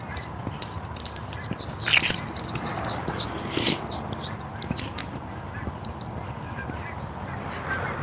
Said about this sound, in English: A couple big strings of geese moving out here.